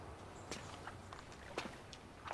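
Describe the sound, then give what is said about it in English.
Footsteps of two men walking away, faint, evenly spaced steps over a constant hiss, about half a second apart. “The two men walk away as the pool begins to fill up with arriving mallards, all zooming in for a swim.”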